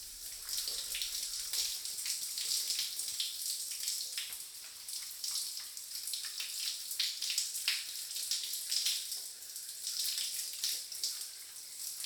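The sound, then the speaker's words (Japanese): Warm water is poured over hair to rinse out shampoo, a soft, continuous splashing stream that runs steadily without a break and with no talk over it. “シャンプーを流しますね。お湯かけますね。”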